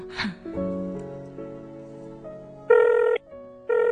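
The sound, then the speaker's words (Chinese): Ringback tone of an outgoing telephone call. A run of steady low tones leads into two buzzing ring bursts, and the second burst is cut off at the end. “打个电话叫醒佢先。”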